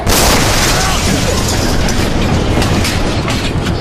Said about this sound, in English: Chelyabinsk was a small asteroid about 20 metres across, so roughly the size of a house. This is the one that exploded sky high above rural Russia, yeah? Yeah. I actually jumped when I heard the bang while watching that footage.